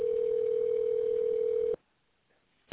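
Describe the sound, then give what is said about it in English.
A telephone dialing tone holds one steady pitch for nearly two seconds, then cuts to silence before a single short beep. “Dialing.”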